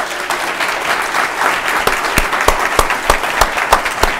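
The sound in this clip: Audience applause welcoming TV host Chuck Todd at a City Club of Cleveland breakfast event: a full, even wash of clapping, with individual sharp claps standing out more toward the end.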